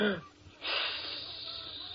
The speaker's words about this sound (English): Okay. Take a deep breath.